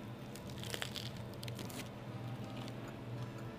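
Faint crunchy bites and tearing into soft bread baked with avocado in a green dough, a few quick crisp crackles early on, then quieter rustling over a low steady hum.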